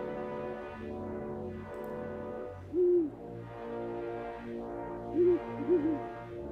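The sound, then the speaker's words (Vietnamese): An owl hoots in the dark night: three short, low, soft hoots, the last two close together. They sound over a continuous background of layered noise. “vẳng đâu đó có tiếng cú kêu trong đêm tối”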